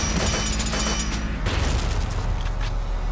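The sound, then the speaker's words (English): Gunfire and explosions rumble through a tank battle video game, a dense, continuous wash of booming blasts and rattling shots with no clear pauses between them. “We're under fire. I can't find this tank.”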